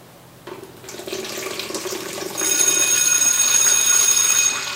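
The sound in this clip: Used film developer poured into a bucket while developing a roll of Ilford 120 black-and-white film: a steady splashing pour that grows louder midway and keeps running to the end.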